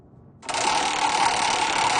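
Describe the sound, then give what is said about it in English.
A prize wheel with 63 pegs spins in a studio kitchen. After a quiet half second it breaks into dense, rapid clicking and rattling that stays loud and steady to the end. “The dear old fiddle wheel here in the studio kitchen. 63 different fiddlers, 63 different pegs.”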